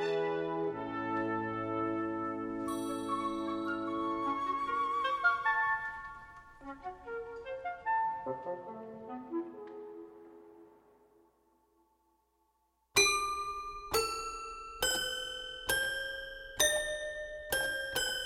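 Toy piano music from an avant-garde suite: bright, bell-like notes and chords ring out and slowly die away into silence, then a run of sharp, evenly spaced struck notes follows.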